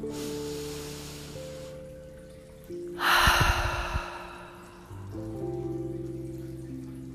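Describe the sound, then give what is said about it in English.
A deep cleansing breath taken in during a calming exercise, heard as a single breathy intake lasting about a second over soft, sustained background music. “Let's inhale with a cleansing breath.”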